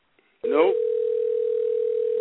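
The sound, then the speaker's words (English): Telephone dial tone heard while a phone call is being placed: a short burst of sound gives way to a loud, steady, unbroken hum that holds at one pitch for about two seconds. “I think we're making a phone call.”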